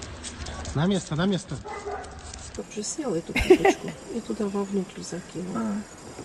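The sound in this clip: A dog barking and yipping in a few short, high yelps, mixed with people talking and laughing over a busy background.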